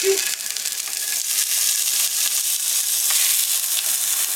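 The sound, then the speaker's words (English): Food sizzles in hot oil in a pan as it browns, a loud, bright, steady hiss that runs unbroken through the whole clip. “Dang, did I burn my oil? I don't think so. It's not smoking. Okay. Before I burn my oil, I'm going to put these on.”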